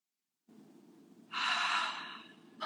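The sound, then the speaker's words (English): A deep belly breath is taken as one long, airy rush of breath over a faint low hum, quiet and without speech. “And so basic thing, like taking 3 deep belly breaths.”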